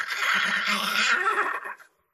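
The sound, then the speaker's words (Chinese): A horse gives one loud, drawn-out whinny as several horses race down from Shaohua Mountain. The neigh holds steady, then fades quickly to silence. “由打少华山是飞奔下来好几匹马呀”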